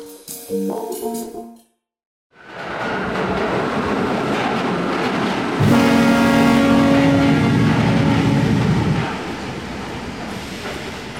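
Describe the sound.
A train rumbles and clatters steadily into a station platform with a loud, broad roar. A sustained high squeal rides over it for several seconds midway before easing off.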